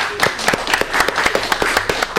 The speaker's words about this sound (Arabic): صفقوا أما برافو يعطيكم الصحة برافو